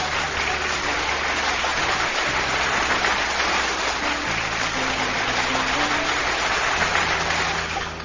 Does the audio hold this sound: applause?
yes